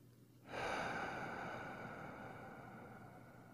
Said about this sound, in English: Take a deep breath in your nose, expanding your stomach outward slowly. And then release your breath through your mouth, emptying the air in your stomach.